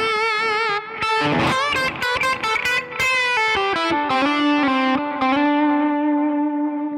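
An electric guitar plays through heavy distortion. A run of quick, crisp notes gives way to sustained notes whose pitch bends and wavers with vibrato, and the notes ring loud and bright to the end.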